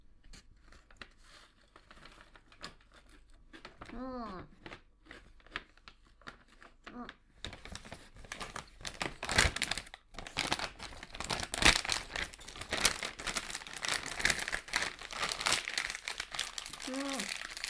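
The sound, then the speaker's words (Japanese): Crinkly plastic snack-wrapper trash being twisted and tied up, a long stretch of dense crackling and rustling that grows busier, with brief speech before it begins and again at the end. “私ゴミとか全部こうやって結ぶタイプなの。”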